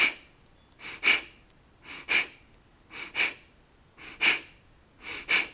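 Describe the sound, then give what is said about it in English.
Kapalabhati breath of fire during a yoga practice: five evenly spaced double bursts of sharp, forceful, hissing exhales with short quiet gaps between them. “So the effort is going into that powerful exhale. The belly begins to pump like a wave, almost like.”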